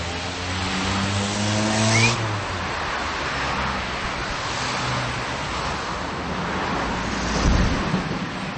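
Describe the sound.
Traffic noise from a busy highway cutting through a city centre in the Czech Republic: a constant, dense roar of vehicles with a low engine rumble that swells briefly near the end.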